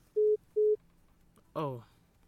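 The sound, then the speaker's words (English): Two short, steady mid-pitched beeps of a telephone disconnect tone as a radio call-in line drops, followed by a brief voice. “Oh, we lost connection with the last caller.”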